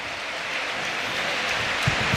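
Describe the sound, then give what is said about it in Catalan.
Rain falling during a football match at a stadium in Valencia, a soft, even hiss that holds steady throughout, with a couple of faint thumps near the end. “I continua plovent.”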